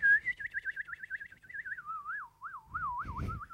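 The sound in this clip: A recorder (flauta dulce) playing from a YouTube video gives a clear warbling tone with wide, rapid vibrato. The pitch drifts slowly lower, then lifts slightly at the end, where a short noisy burst comes in.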